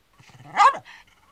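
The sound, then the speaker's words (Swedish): A single loud bark comes from a neighbour's new dog, a stray taken in from Spain, with faint quieter sounds from it just before and after. “Det är hans nya hund som skäller.”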